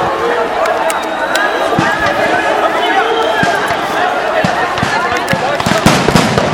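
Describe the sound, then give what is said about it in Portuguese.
Bombs exploding during a street clash with police by a palace square: many sharp bangs and cracks, loud and irregular, over a constant noisy crowd with voices in the background. “Muita bomba, eles estão indo pra cima agora.”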